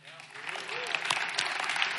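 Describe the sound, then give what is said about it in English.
An audience gives an extra round of applause for a volunteer cook, with clapping swelling after a quiet start into a steady roar and voices calling out over it. “She deserves an extra round of applause.”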